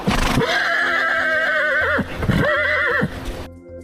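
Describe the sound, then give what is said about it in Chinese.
A pack train's lead horse neighs sharply in a narrow river valley: a loud, wavering, high whinny rich in harmonics, then a shorter second whinny before it cuts off. “突然，头马猛地发出一声尖锐的嘶鸣，”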